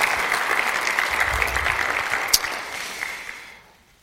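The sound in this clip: Audience applause welcoming guests at a talk: a dense, even clatter of many clapping hands that holds steady, with a sharper clap or two, then fades away near the end.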